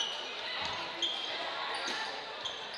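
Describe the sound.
Basketball dribbled on a gym court during a high school boys' game, a few soft bounces under steady crowd noise.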